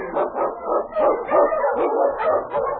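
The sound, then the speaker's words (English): Husky sled dogs barking and yipping on a snowy Yukon trail, many short mid-pitched barks and whines overlapping in a continuous, excited chorus. “Huskies! The Wonder Dog King, swiftest and strongest of Eskimo lead dogs”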